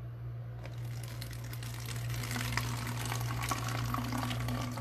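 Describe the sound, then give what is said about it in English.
Water poured into a bottle makes a steady rushing trickle over a constant low electrical hum, starting just after a short quieter opening and continuing evenly to the end. “Now, if I have, no, this bottle actually has water in it. No, let me see. Now, when the bottle is filled,”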